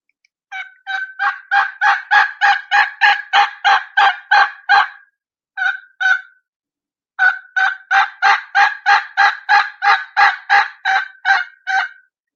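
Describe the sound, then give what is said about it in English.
Sharp, rhythmic transition yelps on a turkey call, each note starting high and breaking into a lower back end. A long steady run of loud yelps is followed by a short pair, then another long run, with no talking. “this is called a transition yelp. You'll hear me start it, and you'll hear the little high, and then you'll hear just a little bit of high in the front of each note, and you'll hear it break into the back end.”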